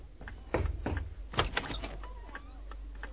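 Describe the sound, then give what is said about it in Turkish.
Knocking at a house door: a few dull, low thuds in quick succession, fairly faint, with no voices. “adını andım, kapı çaldı. Gelen mutlaka odur.”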